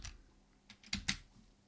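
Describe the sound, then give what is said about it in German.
Computer keyboard keys pressed, the Home key and then the space bar, giving a few quiet, sharp clicks spaced unevenly with no talk over them. “Wir gehen mit der Home-Taste an den Dateianfang und drücken anschließend die Leertaste.”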